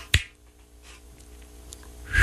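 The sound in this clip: A finger snap rings out once, sharp and crisp near the start, then quieter soft clicks and faint rustling follow.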